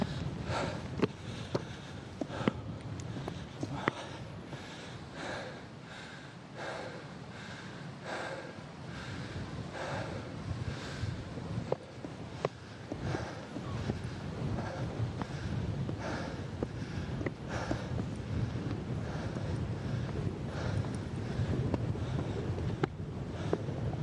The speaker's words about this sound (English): Feel the wind picking up here as well.